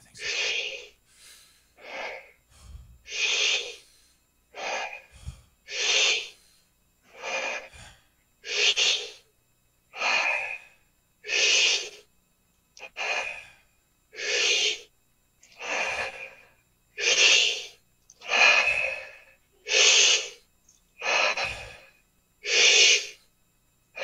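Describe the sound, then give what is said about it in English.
Rhythmic breathing exercise, a long series of forceful inhales and short exhalations, evenly spaced about every second and a half, breathy and airy, loud bursts alone without talk. “the premise basically after we reach our series of inhales and short exhalations is just going to be to relax and hold your breath for as long as you'd like.”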